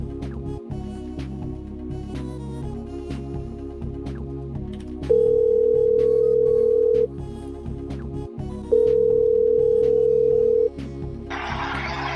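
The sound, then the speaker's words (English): Telephone ringing tones sound while a call is placed to a nearby restaurant: two steady buzzing tones of about two seconds each, separated by a pause, over rhythmic background music. “Let's call the neighboring Wendy's where Aiden's at.”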